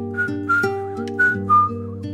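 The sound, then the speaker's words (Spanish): Soft whistling drifts in from the Alameda in Seville: a short tune of several gliding notes that rise and fall, carried over a steady low drone. “Se escucha un leve silbío”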